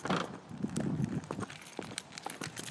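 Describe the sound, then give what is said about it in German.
High-heeled shoes tap along wet pavement in rain or sleet, together with a plastic-and-metal white cane: a steady run of sharp, irregular taps and knocks over a soft, quiet background wash. “was man jetzt hört, sind einerseits meine Hackenschuhe, zweitens der Regen oder der Schneeregen und drittens mein Blindenstock.”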